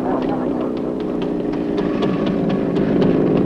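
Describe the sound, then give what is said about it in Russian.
Engine drone of an Izh motorcycle riding up to a farmyard where cows and geese are about, heard as a steady, fairly loud rumble that swells slightly toward the end. “Молодой человек подъезжает на мотоцикле «Иж» к секретарю партийной организации.”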